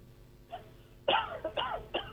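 A caller on a phone line coughing: one short rough cough, then a cluster of several harsh coughs in quick succession, faint overall.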